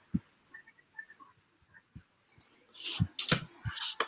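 Keyboard typing into a search bar on a computer: a few sparse, soft key clicks at first, then a denser run of sharper, rapid clicks toward the end, with no talking.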